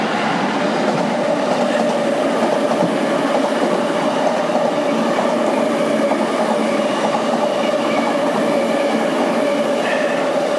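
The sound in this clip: Train passing close to a Tokyo station: a steady, loud rumble with a sustained tonal hum that holds evenly throughout, with no distinct breaks or separate events.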